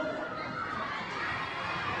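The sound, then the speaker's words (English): Crowd noise at a women's basketball game, a continuous wash of voices and scattered high-pitched shouts, steady and moderately loud with no clear single speaker. “Crowd starting to build on what is a difficult night for most.”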